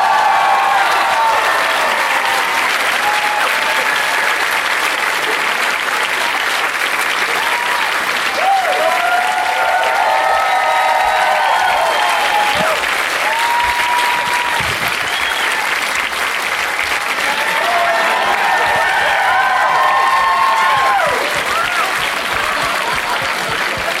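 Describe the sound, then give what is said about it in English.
Sustained, loud applause from a comedy audience in Austin welcoming four comedians onto the stage, a dense, even roar of clapping that holds for the whole span. “Please, please give a big, warm Austin welcome to Mark Norman, Mike MacRae, John Erler, and Mark Wahlberg.”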